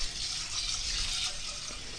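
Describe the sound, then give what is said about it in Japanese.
Water pours in a steady, unbroken gush into a cooking pot that already holds cooking sake and salt, filling it to about 400 ml, with no talk over it. “調味料はねお酒と塩だけなので、あとはもうお水を注いでしまいます。”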